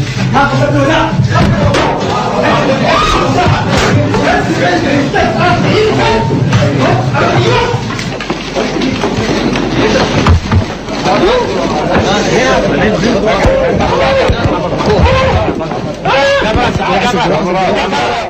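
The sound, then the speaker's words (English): Crowd commotion as shoes are thrown at the President of the United States: many loud, overlapping shouting voices in a dense, continuous clamor. “Here is a little bit of sound from the actual event. This is the action of the shoes being thrown.”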